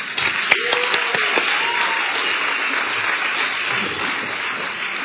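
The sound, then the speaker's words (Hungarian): An audience applauds a guest coming up onto the stage, with dense, steady clapping sustained at an even level throughout. “Úgyhogy tapsoljatok meg, hújongjatok, miközben ő így kiáll, és akkor megkérdezgetjük. So let's welcome him warmly as he comes up now.”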